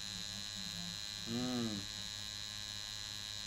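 Tattoo machine needle buzzing during a tattoo session, an unbroken electric hum running steadily throughout, with a brief voiced sound rising over it near the middle.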